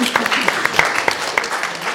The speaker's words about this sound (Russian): Аплодисменты.